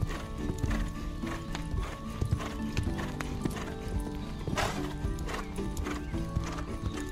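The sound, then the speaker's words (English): Horse hooves clip-clop in a steady, brisk rhythm, and a horse whinnies partway through. “"Yes, I'll do that," whinnied Tinkle's mother. So she and Dapple Gray ran back to the green meadow.”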